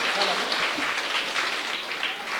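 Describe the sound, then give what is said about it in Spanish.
Applause from a community gathering welcoming a visiting group, a fairly faint, even crackle of many hands clapping that holds steady throughout. “Demos fuertes aplausos a ellos también, que vinieron de lejos.”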